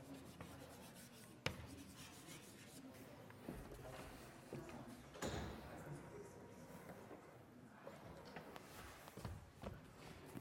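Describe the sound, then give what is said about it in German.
Handwriting during a maths lecture: faint, intermittent scratching strokes come in short bursts with pauses between them, and an occasional soft knock is heard. “Ich habe extra etwas Platz gelassen, weil ich gleich noch was hinschreibe.”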